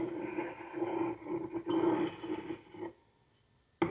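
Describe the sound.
Glass clinking and rattling as it is moved along, passing closer and closer to a judge: a continuous grinding, rolling texture with a steady ringing tone, a short pause, then quiet before one sharp clink at the end.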